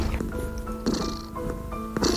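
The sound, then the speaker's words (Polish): Cat sounds: short tonal mewing calls repeating a few times, with a purring texture over a steady low background. “Wszystko rozumieją te koty.”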